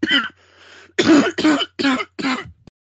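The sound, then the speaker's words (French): A person clears their throat several times in quick succession, short raspy bursts with brief gaps between them and no talking. “Pardon j'avais besoin de m'éclaircir la gorge”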